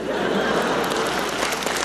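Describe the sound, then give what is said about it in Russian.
Audience applause after a joke at a comedy performance: a brief, dense wash of steady clapping with no break, carrying on alone at an even level. “Ваши аплодисменты считаю знаком согласия.”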